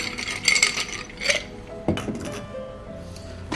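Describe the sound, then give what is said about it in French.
Ice cubes clink and rattle into a cocktail mixing glass as a barman in a bar prepares a drink of vodka, Lillet and gin, giving a few bright glassy knocks and chimes with a softer scrape between them. “Un verre à mélange. Des glaçons.”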